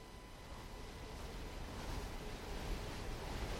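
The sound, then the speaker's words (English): A northeasterly wind blows as a faint, steady rushing noise that swells slightly toward the end, with no voices. “Outside, a northeasterly wind begins to blow. The temperature falls.”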